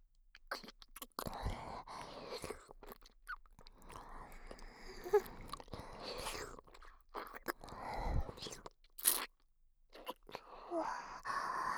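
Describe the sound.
Food is bitten and chewed, with many soft crunches and wet mouth sounds in an uneven rhythm, interrupted now and then by breathy noises.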